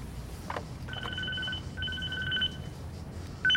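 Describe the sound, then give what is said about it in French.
A mobile phone rings with bursts of electronic two-tone beeping that repeat with short gaps, moderately loud over a faint background hiss. “on m'appelle sur mon portable.”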